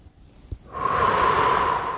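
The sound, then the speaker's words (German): A person breathes in deeply during a guided breathing exercise: after a short quiet start, a steady, airy hiss of drawn-in breath swells and holds strongly to the end. “Du atmest ein durch deine linke Handinnenfläche”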